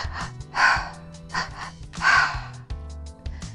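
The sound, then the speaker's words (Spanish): Breathing exercise of two inhales through the mouth and one exhale through the nose, heard as breathy rushes of air, two of them strong and several softer, with brief pauses between. “O puedes hacer otra que es inhalar dos veces por la boca, exhalar una vez por la nariz.”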